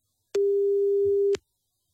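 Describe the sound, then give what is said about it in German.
One telephone tone during a radio call-in prank: a steady, pure mid-pitched beep lasting about a second, starting and stopping cleanly, with no talk over it. “Oh, sie waren nach einem Klingeln dran, aber leider mit dem falschen Wording.”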